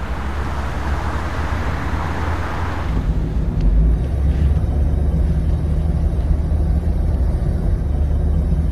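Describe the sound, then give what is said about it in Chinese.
A car engine and exhaust give a steady low rumble throughout, loud and continuous, with a broad hiss over it that drops away about a third of the way in. “你这车的声好像听着不太对。嗯， 有吗？啊， 怎么还有声浪呢？”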